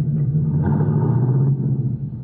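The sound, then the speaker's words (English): A manual car pulling away slowly in first gear as the clutch is let out gently, a low, steady engine rumble at a fairly constant level that eases off slightly toward the end. “Now, put it in first. Let the clutch out easy, and you'll roll slowly and smoothly.”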